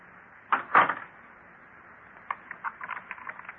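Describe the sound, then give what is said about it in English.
Door of a country store, the Jot 'em Down store, being closed: two solid wooden knocks, then a run of light clicks and taps from the door and latch. “Let me have one more look before we close the door.”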